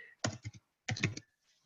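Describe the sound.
Typing on a computer keyboard while writing out a Greek word: two short bursts of quick keystroke clicks separated by a brief pause, quiet overall.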